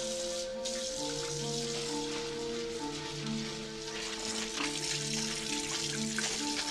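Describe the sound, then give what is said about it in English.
Water runs from a kitchen faucet into a sink during rinsing, a steady, continuous rush with soft tonal notes beneath and no break for the length of the run. “The water runs clear. She turns off the faucet”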